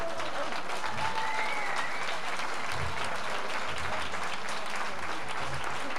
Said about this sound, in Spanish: Me gustaría un gran aplauso con la chica este, el chico también.